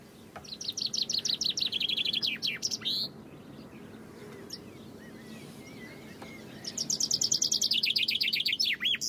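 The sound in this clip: Birds singing and twittering, with high, rapid trills of descending chirps in two bursts separated by a quieter stretch of soft background hiss.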